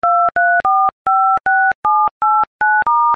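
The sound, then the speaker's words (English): Telephone keypad tones as a number is dialed: nine crisp dual-tone beeps in quick, even succession, loud and clean with brief silent gaps between them. “I don't know who Morgan is, but I'm dialing this number right now.”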